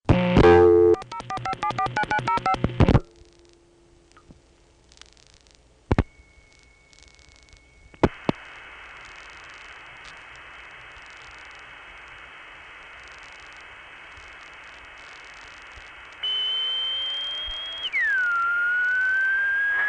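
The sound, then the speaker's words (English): Steady test tone from a telephone exchange loop checker crossed with a vacant level in an Atlanta 4E switching office. A burst of rapid tones and clicks comes first, then a high continuous tone over hiss, and finally a downward-gliding sweep. “You will hear a tone come on immediately, and that is the loop checker test tone that is accidentally crossed with the vacant level in this office.”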